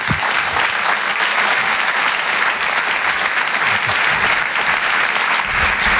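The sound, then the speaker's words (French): Dense, steady applause from an audience welcoming a comedian onto the stage at a French comedy show, sustained and loud for the whole stretch with no break. “merci pour votre accueil, merci pour vos applaudissements, ça me touche vraiment beaucoup”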